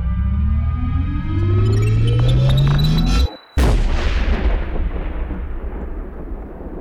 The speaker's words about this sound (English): Cylinder just exploded and hit me in the eye. It was way too hot.